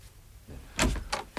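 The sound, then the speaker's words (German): A door being opened, heard as three short clunks and rattles in quick succession, fairly faint and with no voices. “Ja, ich gehe schon, ich öffne schon die Tür.”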